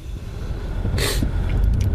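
A low, steady rumble of a car driving onto a ferry bound for an island, with a brief hissing burst midway and a few faint clatters after it.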